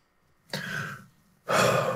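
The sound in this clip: A person draws a deep breath before answering a question about public speaking: two long, airy, sigh-like breaths, the second louder and fuller, with no talking.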